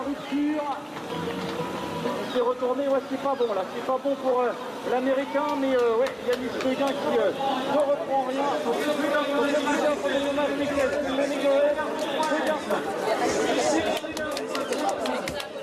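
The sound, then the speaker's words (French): Spectators shouting encouragement to a cyclist during a race: many overlapping voices calling out in a steady, busy mass, growing fuller and more excited toward the end. “Vous entendez le public encourager non pas Ryder et Cambresi, mais bien Yannis Seguin.”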